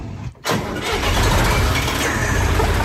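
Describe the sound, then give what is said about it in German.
A 1977 field tractor with a front-mounted tipper starts up: after a brief near-silent gap, the engine catches abruptly and settles into a loud, steady, low rumbling run. “Na, Schlüssel rein? Ja. Kupplung ist da drüben. Kupplung ganz hoch”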